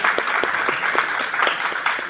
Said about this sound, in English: I think we should all give Nick a round of applause for doing this.